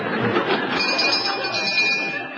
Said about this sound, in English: Here, what's the bell for? Fire drill.